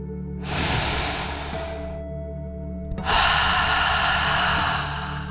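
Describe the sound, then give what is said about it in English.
A deep, slow breath in and out, part of a guided relaxation for children. Two long, loud airy hisses are heard with no voices: a drawn-out inhale, then a fuller exhale. “let's take one final deep dragon breath in and out.”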